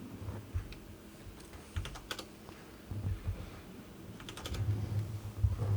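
Typing on a computer keyboard as a dice-roll command is entered into the chat of an online tabletop role-playing game; soft, scattered key clicks in small bursts sit over a steady low hum.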